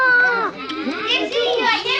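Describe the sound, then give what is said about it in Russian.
Lots of children playing together in a house, their high voices chattering, squealing and calling over one another in a lively, continuous jumble. “Куча детей играется в доме у Захара.”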